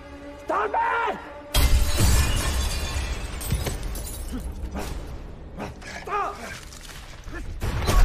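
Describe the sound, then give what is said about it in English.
Window glass shatters as a screamer creature headbutts it. A sudden loud crash lands about a quarter of the way in, followed by sustained crackling debris. Shrill, wavering cries come before the break and again later. “He waits near the window as the screamer returns to headbutt the glass again.”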